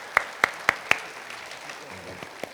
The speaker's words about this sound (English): So would you give Jonathan a warm welcome and help him not be nervous this morning?